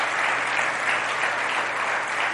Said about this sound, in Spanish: Por supuesto que merece un aplauso.